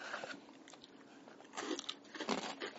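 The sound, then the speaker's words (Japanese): Biting and chewing an extra-rich, crisp snack produces faint, dry crunches, with a few sharper bites standing out toward the end and no talk. “超濃厚なカリカリ食感、はい、シンプル。いただきましょう。”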